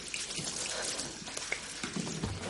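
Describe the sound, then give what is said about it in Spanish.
Water splashes and drips as a woman washes her armpits and chest in her home bathroom, a soft, irregular trickle with a few light splashes and drops, fairly quiet and with no talk. “En el baño de su casa, Agatha se lava tensa los sobacos y los pechos.”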